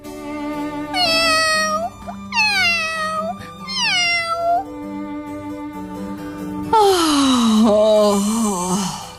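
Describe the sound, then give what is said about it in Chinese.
A kitten cries hoarsely: four drawn-out, high meows, each falling in pitch, the last longer and raspier than the rest. “可怜的猫宝宝嗓子都快哭哑了。”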